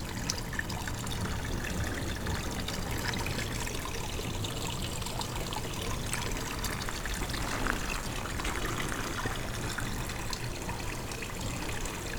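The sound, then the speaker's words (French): Water pouring in a steady, continuous stream, with an unbroken splashing hiss that holds an even level throughout and has no talk over it. “De l'eau.”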